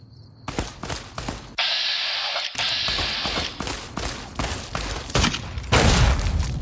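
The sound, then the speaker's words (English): Gunfire from a Viper gunslinger in the Fallout video game: many sharp, noisy bursts of shots crack one after another, with heavier sustained stretches of fire in between. “there's a Viper gunslinger shooting me from over the hill.”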